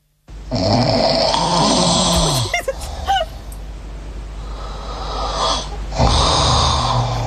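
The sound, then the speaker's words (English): Loud, raspy human snoring, recorded. A long rattling snore gives way to a few short snorts and a quieter breathy stretch, then another rasping snore starts near the end. “Whose snore is worse? You can vote now, have your say.”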